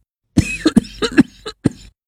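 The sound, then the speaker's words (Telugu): An elderly man coughs in a fit of several harsh, throaty bursts with short gaps between them, his throat dry from talking, with no speech alongside. “ఏమిటి నాన్న, దగ్గుతున్నావు?”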